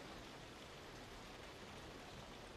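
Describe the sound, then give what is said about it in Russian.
Rain pouring outside in a film scene, a soft, even hiss of falling water with no distinct drops, faint and unchanging throughout. “На улице льет дождь.”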